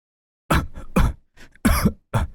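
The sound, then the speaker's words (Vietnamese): Dry, hacking coughs from someone with an itchy, irritated throat: a few harsh bursts separated by short gaps, one drawn out and raspy, loud and with no talk. “ho khan vài tiếng, cảm giác trong cổ như dính phải thứ gì đó ngứa ngái khó chịu. Nó phát ra tiếng khò khè”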